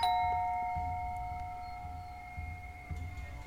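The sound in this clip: A house doorbell rings once, its bright, steady chime tones sounding together and slowly fading as the ring decays.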